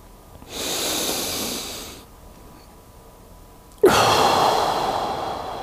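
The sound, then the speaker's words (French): Deep breathing during a guided relaxation pause: two long, airy breaths, one slow and steady and the second starting with a sharper onset and staying loud, with a quiet gap between them and no talking. “Prends un moment de pause. Et on respire.”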